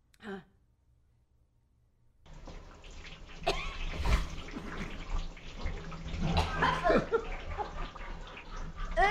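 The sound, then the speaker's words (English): Sloshing and splashing water as a person swims around in a septic tank: a quiet start, then a steady, churning wash of liquid with voices over it. “now we have something super interesting, and that is this guy swimming around in a septic tank.”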